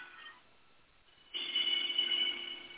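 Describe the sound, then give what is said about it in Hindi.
A mobile phone rings during a lecture, its thin electronic ringtone breaking in suddenly after a quiet opening and continuing steadily to the end. “Hello, अभी थोड़ा उसको काटिए ना, mobile को काटिए, जो कर रहा है उसको काट दीजिए, बाद में कर लीजिएगा।”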